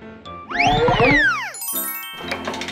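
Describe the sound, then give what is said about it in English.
A bicycle bell rings alone with bright, tinkling metallic tones and shimmering overtones, after a loud swooping sweep of ringing pitches. “Bicycle. Bicycle. Ring. Ring. A bicycle goes ring, ring, ring.”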